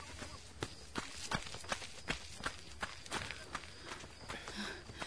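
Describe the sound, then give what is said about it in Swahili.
Running footsteps of two people at running practice, pushing toward a finish line under 400 m away, land in a quick, steady rhythm of many sharp thuds at an even pace. “Rahim na Nina wao wanafanya mazoezi ya kukimbia”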